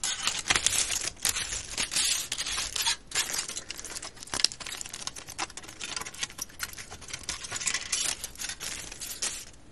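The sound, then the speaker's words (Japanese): Aluminium foil being crumpled into a ball by hand, heard as dense, crisp crackling and crinkling that runs loud and unbroken through the whole clip, with no voices. “次にアルミホイルを一度くしゃくしゃにして丸め、きれいに広げます。”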